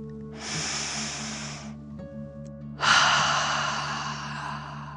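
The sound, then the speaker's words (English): One slow, deep breath during guided meditation: a breathy inhale, a short pause, then a louder, longer exhale that fades gradually, over a faint steady low hum. “Feel the warmth and take another deep dragon breath, in and out.”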